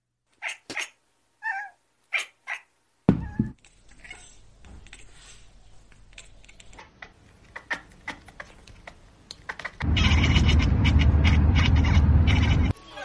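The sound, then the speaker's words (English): Short cat meows open a brief cat video: a few quick calls, then scattered soft clicks and rustles, ending in a loud steady noise. “Everybody, we've earned a very short cat video.”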